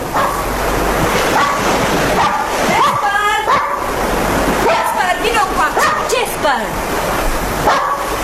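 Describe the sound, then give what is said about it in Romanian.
A dog barks repeatedly at the shore by a breakwater as the tide comes in, with several barks rising over a steady, noisy background while people talk across the scene. “Eu cunosc câinele. Nu e al dumitale.”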